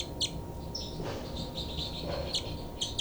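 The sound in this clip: Birds chirping: a few faint, short, high tweets scattered over a low, steady background hiss, with no voices.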